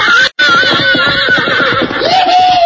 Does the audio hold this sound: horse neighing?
yes